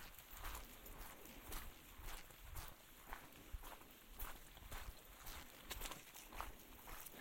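Footsteps walking onto a road in the mist, steady and evenly paced with many soft thuds, over a constant hiss of background noise.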